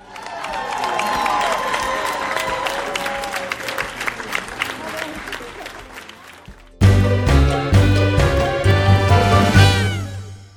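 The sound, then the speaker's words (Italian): Applause and cheering from an audience at a children's radio programme after a story reading, a dense patter of clapping with excited voices, which gives way to a louder section after about seven seconds. “Un applauso.”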